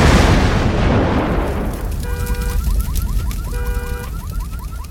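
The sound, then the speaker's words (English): A garbage bin in a courtyard explodes in flames with a loud, broad roar that slowly fades, while a warbling, alarm-like tone repeats from about midway. “A garbage bin in the courtyard about 50 feet away exploded in flames.”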